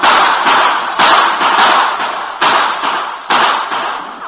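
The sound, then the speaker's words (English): Gunfire sound effects in a Lone Ranger radio drama shootout between crooks, lawmen and the masked man: several sharp, loud bangs at irregular intervals, each followed by a short decaying tail, with a narrow, old-recording tone. “The crooks caught in the crossfire from the lawman's guns and those of the Lone Ranger fought back desperately.”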